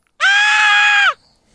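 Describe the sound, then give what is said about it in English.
A man's high-pitched scream in a scene from Raiders of the Lost Ark: one loud, sustained, shrill cry lasting about a second, then cut off into near silence. “And he starts screaming like a girl.”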